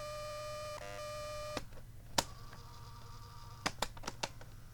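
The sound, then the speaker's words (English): Playback of a shortwave radio recording tape: a steady buzzy tone with stacked harmonics wavers briefly, then gives way to hiss broken by several sharp clicks. “This must be one of my shortwave recording tapes.”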